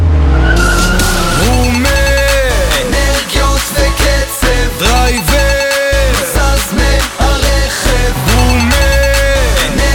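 Tires screech as a car arrives, with sharp squeals repeating again and again over loud, driving music with a strong beat.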